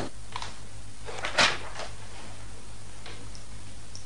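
A drawer in a sideboard is opened with one short, sharp wooden click. The click stands out briefly over a low, steady hum, with faint ticking before and after it.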